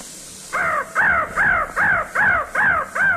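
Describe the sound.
Seven harsh, downward-arching crow caws repeat in a steady, even rhythm, loud and clear with no voices, played as a sound effect.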